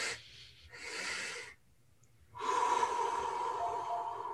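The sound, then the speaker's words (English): Relaxation breathing: two quick, airy inhales through the nose, a short pause, then a long, steady exhale through the mouth with a faint whistling tone. The breaths are clear and alone, with no talk. “So it would be like this. If you do that 3 or 4 times, inhale through the nose,”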